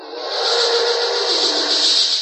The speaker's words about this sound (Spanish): ¡Y lanza fuego! ¡Nos va a quemar!